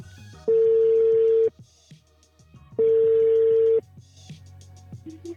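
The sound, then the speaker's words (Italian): A telephone line tone sounds while a call is being dialled: two steady, even tones, each about one second long, separated by a short silent gap. Faint clicks and line noise fill the quiet between them. “Arriva al Toro e noi adesso proveremo a contattare un vero torinista. Vediamo se ci risponde. Proviamo.”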